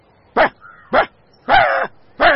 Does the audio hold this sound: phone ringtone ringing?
no